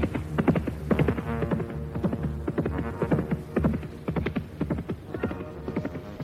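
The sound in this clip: Horse hooves clip-clop as a rider approaches: a steady, rhythmic run of many hoofbeats at an even trotting pace, with a hollow knocking quality that stays moderately loud throughout.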